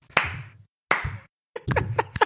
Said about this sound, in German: Ich möchte aufstehen und klatschen dafür.